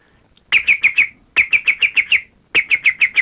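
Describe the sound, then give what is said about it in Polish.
A man imitates the green woodpecker's laughing call with his voice: three loud bursts of rapid, evenly spaced, sharp whistled notes, each burst a quick run of several notes, with brief silences between them. “Więc naśladuję niektóre ptaki. Mhm. Najbardziej udaje mi się dzięcioł zielony. Rzeczywiście reaguje, słucham. No, proszę bardzo, tylko to będzie głośne.”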